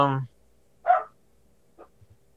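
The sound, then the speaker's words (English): A dog barks in the background after a brief burst of talk: one clear bark, then a fainter second bark, with quiet pauses between. “that dog's barking again.”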